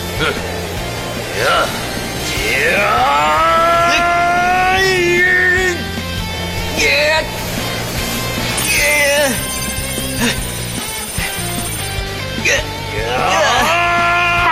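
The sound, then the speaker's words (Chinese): Matrix thrusters starting up, giving off repeated whining, engine-like revs that climb in pitch, coming in several surges with a loud, gritty rumble underneath. “矩阵推进器启动。”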